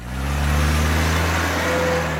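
A car engine in a Michelin tire advertisement hums with a steady, loud, low drone that swells in the first half-second and then holds level without clear revving peaks.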